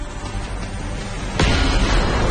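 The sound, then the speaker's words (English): A sudden heavy burst as two sewer grates pop open beside a steam-filled vent, one sharp onset cutting into an already dense, rumbling background and leaving a louder, sustained roar behind it. “Two sewer grates pop open.”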